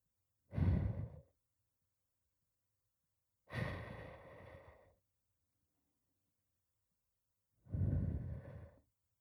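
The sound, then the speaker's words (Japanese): Soft breathy blowing into an ear during an ear-cleaning roleplay: three gentle, airy puffs, each lasting about a second, separated by silent pauses. “まだ耳ふうをしているだけなんだから。”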